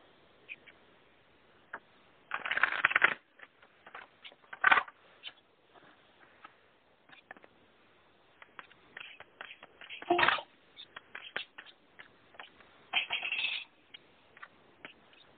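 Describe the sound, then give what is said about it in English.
Cards being shuffled and pulled for a card reading: faint papery riffling in a few short bursts, with scattered soft clicks and rustles between them. “We have them almost done, but I wanted to just pull a few cards.”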